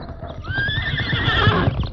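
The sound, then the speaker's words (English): A horse whinnies with a high, wavering neigh while its hooves clop in a steady rhythm beneath, the hoofbeats continuing after the call fades. “Saddle up, Tonto. Maybe we can help. Steady, Silver.”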